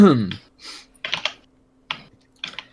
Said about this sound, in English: who's using the typewriter? On your Discord, just put him low.